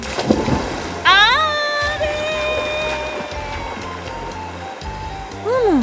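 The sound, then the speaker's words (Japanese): A splash as something is thrown into water in a cartoon-style drama: a short rough burst at the start, then a bright, wavering whistle-like tone that sweeps upward and holds, ending on another warbling swoop. “早速エコロを流したいと思います。 ドキドキしちゃうな。 それザブーン。”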